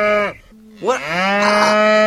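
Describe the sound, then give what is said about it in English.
Deep, drawn-out mooing from a herd of big cattle gathered in open Texas country: a few loud, harmonic calls, the last one long and sustained. “Hey, man, you see all them cows over there congregating? Those cows are huge.”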